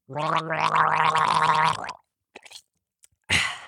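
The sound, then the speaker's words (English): A person gargling: a sustained, voiced bubbling gurgle lasting about two seconds, followed by a few faint wet clicks and a short noisy burst at the end. “reminding you to gargle often, gargle proud, and gargle strong. If it's safe to do so, take this podcast in the bathroom with you right now and get gargling for your health.”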